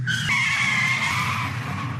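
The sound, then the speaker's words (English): A newish car skids under automatic emergency braking: a loud, sustained high tire squeal lasting about two seconds over a steady low road rumble. “The car's computer takes over and decides that you'll stop way before a driver would normally react and hit the brakes. It's called automatic emergency braking.”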